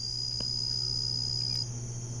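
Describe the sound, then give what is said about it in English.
Atmospheric jungle insects in Borneo chirr in a steady, unbroken high-pitched drone over a low continuous hum, with no voices. “it's a little bit of atmospheric insects from the jungle in Borneo.”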